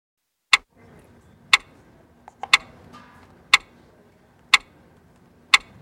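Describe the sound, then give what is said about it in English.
A clock ticks six sharp, even times about one second apart, with a few faint softer clicks between two of the ticks. “Do you hear that? Do you hear that clock? That is the sound of time ticking”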